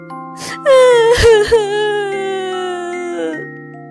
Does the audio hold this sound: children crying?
yes